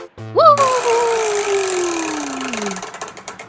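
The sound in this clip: A chore wheel being spun gives off a descending whistle-like tone that glides steadily lower, while quick clicking ticks grow more distinct and slow toward the end.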